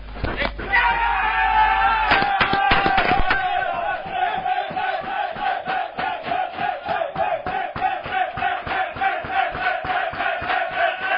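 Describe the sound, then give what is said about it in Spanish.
Guijuelo football players celebrating as they burst into a press room, loud shouting and cheering that settles into rhythmic clapping and chanting voices. “Bueno, pues ahí están la alegría de los jugadores del Guijuelo que entraban en sala de prensa, celebración en el campo.”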